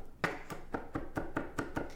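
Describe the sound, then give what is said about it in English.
A knife chops two fresh garlic cloves in nine quick, evenly spaced, faint taps that fall in a steady rhythm. “now I'm going to quick chop up our garlic here. We got 2 garlic cloves that we're gonna throw into our mixture.”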